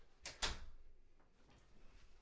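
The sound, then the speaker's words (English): A door being pushed shut gives two quick, close-spaced clunks near the start, the second slightly heavier, followed by a faint, quiet stretch with only soft low rustling. “Hold on, try to close the door.”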